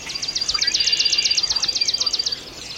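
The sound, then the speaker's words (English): Birdsong from a mixed chorus of northern cardinal, blue-gray gnatcatcher, warbling vireo, red-winged blackbird, swamp sparrow, yellow warbler, common grackle and catbird. A loud, high, rapid trill of many evenly spaced notes dominates, with fainter calls beneath. “We're hearing northern cardinal, blue-gray gnatcatcher, warbling vireo, red-winged blackbird, swamp sparrow, yellow warbler, common grackle, catbird,”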